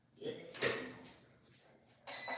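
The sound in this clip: A heat press is pulled shut and locked, giving a few faint mechanical clunks and a sliding sound, with someone talking.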